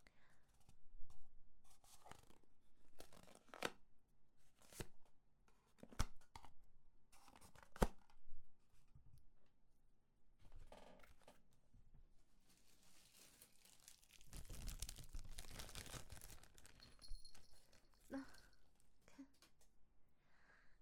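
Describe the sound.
A package is being unwrapped, giving soft, intermittent crinkling and tearing of wrapping, with quiet scrapes and rustles that come and go, louder in a dense stretch near the end.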